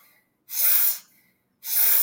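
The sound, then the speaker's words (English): Two forceful, deep inhales drawn sharply through the nose during a breathing exercise. Each is a loud, airy rushing hiss of about half a second, with a short quiet pause between them and no talk. “I want to focus on aggressively breathing through the nose. Breathing in. In through the nose.”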